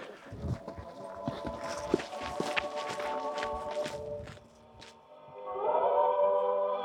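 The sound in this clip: Faint footsteps of people walking down a path, soft and irregular, carrying a small box wrapped in a flag, followed by a quieter stretch and a low sustained tonal hum.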